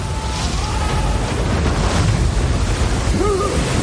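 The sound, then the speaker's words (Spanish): A rushing river current and waterfall sweep wooden barrels downstream, a loud, continuous roar of churning water that stays steady throughout. “Salen al exterior cayendo por una cascada. La corriente los lleva río abajo.”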